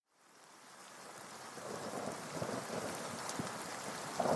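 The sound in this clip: Rain and thunder on London streets fade in from silence and build into a steady downpour, with low rumbling rolls and scattered heavier drops beneath the wash, no voices.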